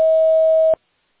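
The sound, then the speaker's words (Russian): An answering machine sounds its recording signal: one steady, clear beep lasting about three quarters of a second, followed by silence. “После сигнала, пожалуйста, запишите свое сообщение. Для окончания записи нажмите любую клавишу или перестаньте говорить.”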